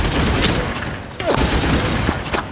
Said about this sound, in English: The air is seared by an intense weapons exchange. Even the dust burns.